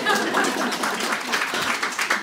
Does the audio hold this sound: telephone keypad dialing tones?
no